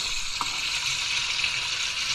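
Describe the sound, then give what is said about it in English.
Moink bacon frying in a pan in a kitchen, a dense, even hiss of sizzling and crackling fat that holds steady throughout, with one faint pop near the start and no voices. “That is Moink bacon being cooked in my kitchen.”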